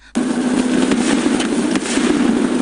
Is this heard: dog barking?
no